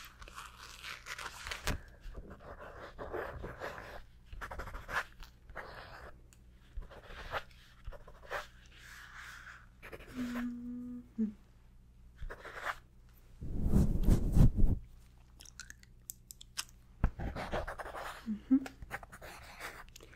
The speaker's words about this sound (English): I promise I'm not writing your name, okay? I'm just writing a couple other names.